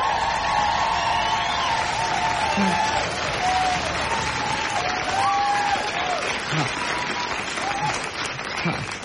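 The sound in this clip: A studio audience applauds and cheers to welcome a lifestyle tips contributor on a comedy show. Sustained clapping carries scattered whoops over it and holds steady throughout, thinning only slightly at the very end.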